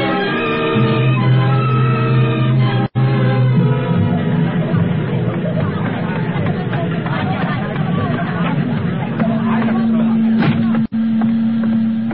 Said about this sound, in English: Turn off that machine. I want to talk to you.